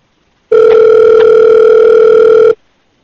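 A phone call's ringing tone sounds as a single steady electronic beep with a fixed pitch, lasting about two seconds and heard alone with no voices.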